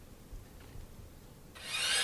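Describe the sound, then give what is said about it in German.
Electric drill starting up: after a low, soft rumble, a bright high-pitched whine cuts in near the end and grows louder. “Bohrmaschine. Richtig.”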